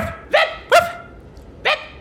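A dog barks three times, sharp and fairly loud: two barks close together, then a third after a short pause, with no voices.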